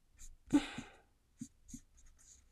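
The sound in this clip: A mechanical pencil scratches across paper while drawing a stripy sweatshirt. A longer stroke is followed by a few short, quiet scrapes with pauses between them.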